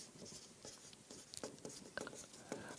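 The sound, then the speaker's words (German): Faint scratchy handwriting as a word is written by hand on a board or paper, a series of short scraping strokes and taps. “ich schreibe hier mal hin, Inquisition”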